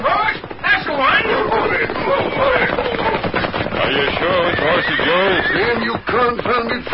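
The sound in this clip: A horse neighs and whinnies several times over a loud, dense, continuous din, its wavering high calls rising and falling throughout.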